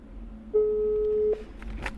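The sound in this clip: A telephone line tone sounds while a call is placed from a newsroom to Moscow: one steady, mid-pitched beep held for just under a second, with faint clicks and low noise before and after.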